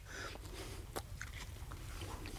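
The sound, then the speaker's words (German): Someone bites and chews bread rolls topped with bacon. The crunching and munching are faint, with one crisp bite standing out partway through. “Essen wir erst mal unsere Bämmen. Du willst sicher die mit Leberwurst. Und ja. Ich esse die mit Speck.”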